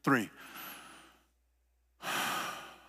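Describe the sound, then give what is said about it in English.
Group taking a deep breath on a count: a brief voice, then a long airy inhale, a moment of silence, and a long breathy exhale. “We're going to take a deep breath on the count of three.”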